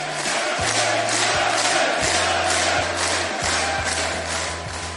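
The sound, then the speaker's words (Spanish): A studio audience cheers and shouts in a loud, continuous crowd roar with no clear pauses, holding level throughout. “Se trajo todo el público, es impresionante”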